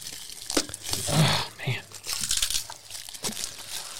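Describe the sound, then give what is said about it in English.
A tightly wrapped, taped package of Stellum Rye is unwrapped with bursts of crinkling and tearing paper, uneven and scratchy, while voices talk over it. “So we just got a regular, the green label Stellum Rye. It's green label? Yep. Very tightly wrapped. Goodness gracious. Okay.”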